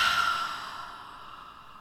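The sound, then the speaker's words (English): A single deep exhaled breath, a steady, airy rush that fades gradually over about two seconds, alone and with no talk. “go ahead and breathe in. And keep inhaling, really make it a deep breath, and exhale.”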